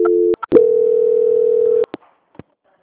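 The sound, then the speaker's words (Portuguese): A telephone line tone plays during a call transfer: a short steady tone and a click, then a longer flat mid-pitched tone of about a second and a half, then a few sharp clicks and quiet. “Eu vou transferir agora para o setor de qualidade, ela vai fazer as últimas confirmações para poder finalizar, tá bom? Tá Só um bom. minutinho. Transferência.”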